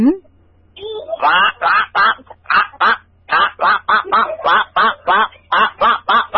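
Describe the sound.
A human voice imitates a duck quacking, giving a long run of many rhythmic, nasal quack bursts at a steady pace after one brief rising sound.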